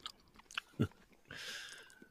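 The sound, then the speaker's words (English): Biting the head off a red gummy bear, a soft, chewy bite with one firm low thud and a few faint smacking noises around it. “Then there's a gummy bear that's red. I ate its head off.”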